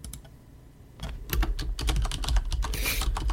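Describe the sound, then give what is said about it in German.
Fingers type on a mechanical keyboard, a few sparse soft clicks at first, then a denser run of crisp keystrokes, fairly quiet and with no voices. “Hast du eine Schreibmaschine da, oder? Ja. Bitte schön. Mechanische Tastatur, beste.”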